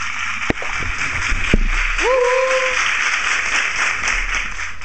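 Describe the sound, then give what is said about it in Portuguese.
Audience applause at a live variety show with folk music, a steady dense wash of clapping from start to end, with a brief gliding whistle-like tone in the middle. “já agora uma salva de palmas”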